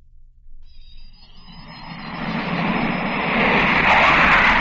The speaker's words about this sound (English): The sound you hear is a twin jet British Canberra bomber as it left the coast of Ireland at more than 500 miles an hour.